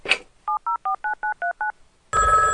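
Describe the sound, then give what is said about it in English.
Touch-tone telephone dialing for a cartoon prank call: seven quick, evenly spaced beeping tones follow a short rustle, then a loud, steady buzzing tone takes over. “Hey, you want to make a prank phone call? Ooh, prank phone call.”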